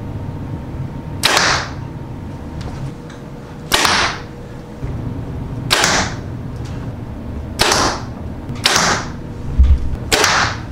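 A 2019 Bowtech SR6 compound bow being shot: several sharp, loud snaps spaced a few seconds apart, each a quick bright crack that fades fast, over a quiet, steady background.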